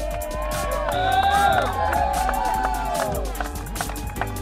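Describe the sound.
Crowd cheering for Deshaun Watson at Cleveland Browns training camp: a steady mass of voices with scattered whoops and shouts rising above it, continuous and fairly loud throughout.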